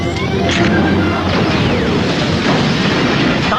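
Grenade explosions in a combat scene form a dense, loud, continuous roar of crashing booms and clattering debris that runs the whole length without a pause.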